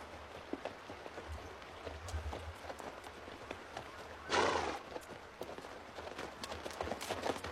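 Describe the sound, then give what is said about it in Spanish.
Horse hooves clip-clop as a mounted rider approaches among trees, an irregular run of hoofbeats with a louder, broader burst of sound partway through. “Está entre los árboles montado sobre su caballo.”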